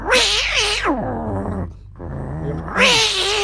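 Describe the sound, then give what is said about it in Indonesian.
A person imitates a cat, giving loud wavering yowls at the start and again at the end, with lower drawn-out growling tones in between. “awakmu iso koyo niro no suarane kewan-kewan ngene iso ya contone koyo kucing. Semut nah, kucing kerah.”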